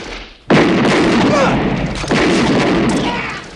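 Gunshots from a silver Desert Eagle handgun and a shotgun during an action film firefight against soldiers. Two sudden, loud blasts each swell into a long noisy rumble that fades slowly.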